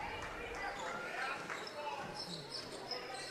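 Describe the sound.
A basketball bounces on the court during a dribble in a game between the T-Birds and the Vikings. The thuds sit under ongoing talk and crowd noise.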